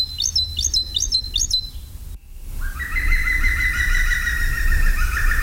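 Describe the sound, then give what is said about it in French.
A green woodpecker calling in the countryside: four quick, high, chirping notes, then after a brief gap a longer sustained call that stretches on at a slightly lower pitch, over a faint low background rumble. “Le numéro 19, c'est le pivert, qu'on peut voir un peu partout dans la campagne, qui est essentiellement un mangeur de fourmis.”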